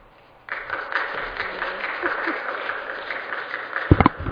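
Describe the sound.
An audience applauds to welcome a speaker at a talk on HIV healthcare: steady clapping that starts abruptly after a short silence, holds for a few seconds and ends with a few louder single claps.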